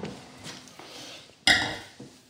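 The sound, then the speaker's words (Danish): A burgundy wine glass is handled during a wine tasting, giving one bright, ringing glassy clink after some soft low handling noise, then fading out. “så henter jeg lige et par ordentlige bourgogne baljer.”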